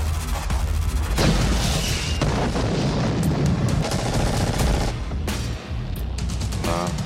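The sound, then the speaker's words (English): Rapid machine-gun fire with heavy booms mixed in, a loud, dense and continuous barrage of sharp cracks that barely lets up across the whole clip. “A machine gun.”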